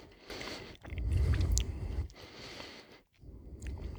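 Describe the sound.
Soft chewing on a bite of layered cake with jam and a sponge flecked with green almond-and-pistachio filling; quiet, moist mashing comes in a few bursts with brief pauses between them.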